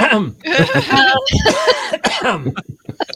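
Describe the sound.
Coughing from a tickle in the throat, a few sharp, rough bursts mixed in among people talking.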